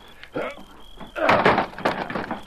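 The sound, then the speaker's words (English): A locked door in a sheriff's office is forced in by shoulder blows: a dull thump, then a louder, longer crashing burst of wood and impact noise. “It's locked. We'll have to break it in. Put your weight into it, Tonto.”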